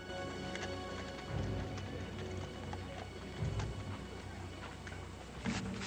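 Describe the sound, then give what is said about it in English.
Horse hooves clip-clop as a rider halts on a dusty trail while a herd passes. Irregular, muffled knocks run through a steady rumbling background, with a few heavier thuds standing out. “He stops his horse and waits for the herd to pass, before continuing on his way through the dust.”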